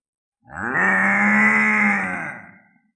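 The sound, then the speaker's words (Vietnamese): A large golden-backed buffalo lets out a single deep, thunderous bellow, heard alone. The sound is loud and rough and holds steady for about two seconds before fading. “Trâu lớn lưng vàng phát ra tiếng rống như sấm rền, nó đang bị giày vò, nội tâm vô cùng sợ hãi.”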